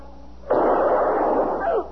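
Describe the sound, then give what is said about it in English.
A single gunshot in a tense standoff: a sharp, loud crack followed by a long rumbling tail of more than a second that slowly fades. “Oh, dear God. Mister, you shot him.”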